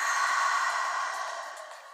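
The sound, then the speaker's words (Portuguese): A slow breath is released through the mouth during a calming breathing exercise, a soft airy hiss that starts full and gradually fades away. “Inspira pelo nariz, vai. Segura. Solta o ar pela boca.”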